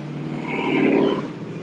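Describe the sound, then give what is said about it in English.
A car engine revs in a brief roaring swell that builds to a peak midway and eases off, a steady low rumble throughout. “Sorry, I have a guy showing off how impressive his motor is.”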